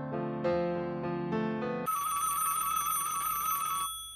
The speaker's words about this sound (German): Ah, und da haben wir noch einen Anrufer in der Leitung.